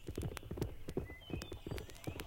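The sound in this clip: Horse hooves clip-clop beneath a mounted mail rider, a long run of sharp, knocking hoof strikes in a quick, even rhythm, fairly faint, with no voices.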